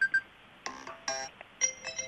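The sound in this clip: A marimba mobile phone ringtone from the classic category: bright, mallet-like notes in short melodic groups, played alone.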